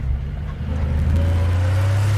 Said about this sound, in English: I drive to the laundry. It's 5 minutes before it closes. I'm running out of time. And shirts. I take command of the streets. In my truck